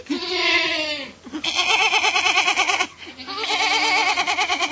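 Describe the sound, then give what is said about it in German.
A small goat bleats in three long, quavering, nasal calls separated by brief pauses, each call loud with a rapid wavering pulse. “Das hat eine sehr lustige Sprache, so eine kleine Ziege.”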